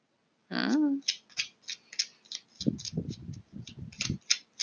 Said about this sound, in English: Judgment card flipped out.